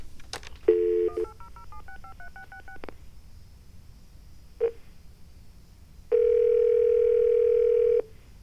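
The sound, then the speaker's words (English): Touch-tone keypad dialing of a toll-free number: a quick run of short dual-tone beeps, each at a different pitch, then a lone beep and finally a longer steady tone. The tones are clear and loud over a faint hiss, with no voices. “I guess we could try something along the lines of Pokemon. 1-800-POKEMON. P-O-K-E. M-O-N.”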